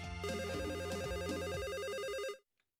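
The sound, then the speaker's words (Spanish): A telephone rings as a call comes in to a radio morning show, a loud warbling tone that alternates rapidly between two pitches over a low pulsing buzz, then cuts off abruptly near the end. “En Idaho, tenemos llamada.”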